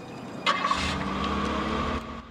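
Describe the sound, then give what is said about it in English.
A Jeep Cherokee drives off: a sharp burst at the start gives way to a steady, mid-pitched engine rumble that holds, then eases near the end. No talk. “They drive off.”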